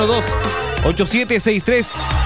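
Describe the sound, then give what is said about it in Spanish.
A telephone ringing with an electronic ringtone, a loud, repeating melodic pattern of bright warbling tones that cycles several times in quick succession. “Suena el teléfono, suena el teléfono”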